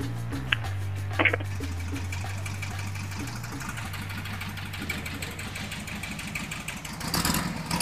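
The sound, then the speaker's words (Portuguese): A Volkswagen Kombi van's engine idles while warming up, holding a steady, low, rapidly pulsing chug with a few light clicks at the start. “Aquece o motor da Kombi aí”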